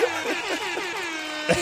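A horn sounds one loud, sustained, brassy blast with a wavering, buzzy pitch. A short knock comes near the end.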